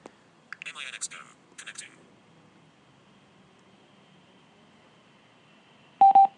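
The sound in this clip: Two short, bright electronic beeps from a Minx Go portable speaker signalling that it has connected. They come close together near the end, after a few seconds of near quiet.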